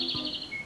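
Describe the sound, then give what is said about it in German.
A European robin sings a brief, thin, high-pitched phrase. The clear whistled notes last well under a second and are heard alone. “Das ist das Rotkehlchen.”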